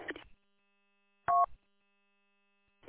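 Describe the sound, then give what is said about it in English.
Telephone keypad dialing tones as a call is placed, heard as a few short tone bursts separated by silence, with the last one starting just at the end. “Be right back. Got a phone call.”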